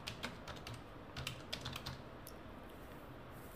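Typing on a computer keyboard: quiet, irregular key clicks, many keystrokes in quick bursts early on, then a few sparser taps, with no voices.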